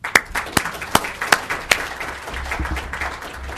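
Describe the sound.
An audience at a health-care professional talk claps to welcome a speaker. A few sharp, evenly spaced claps stand out over lighter scattered clapping that thins out quickly.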